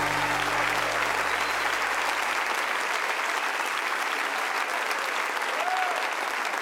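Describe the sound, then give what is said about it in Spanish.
Applause from a crowd: dense, steady clapping that stays loud throughout, with a low hum underneath that fades out partway through. “Dale fuerte ese aplauso a él.”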